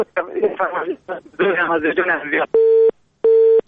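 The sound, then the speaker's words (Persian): A voice speaks for a couple of seconds before the phone call drops into a busy tone: two loud, steady, evenly spaced beeps of the same pitch, separated by a short gap. “متاسفانه تماس برادر ما قطع شد و ما نفهمیدیم که کدام آهنگ فرمایش دادن.”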